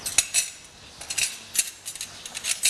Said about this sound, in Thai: ตักน้ำซุปมานิดนึงนะคะมาละลายเครื่องที่โขลกไม่งั้นเดี๋ยวจะเป็นก้อนนะคะนะคะคนให้ละลายนิดนึง